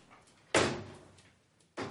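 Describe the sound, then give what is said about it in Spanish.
A window being shut in a dark hallway: a sharp, loud knock-like thud that fades away, then a second similar thud near the end, with quiet between. “se acerca hasta la ventana y la cierra”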